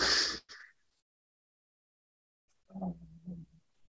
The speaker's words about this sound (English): And just a couple cleansing breaths here with me. There you go, just letting it go, letting it go, letting it go, release.